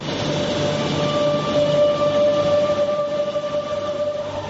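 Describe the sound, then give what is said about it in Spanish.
A Madrid metro train in an underground station gives a steady, loud rumble, with a sustained high metallic whine running through it. “Este es el sonido que escuchamos cuando bajamos al metro”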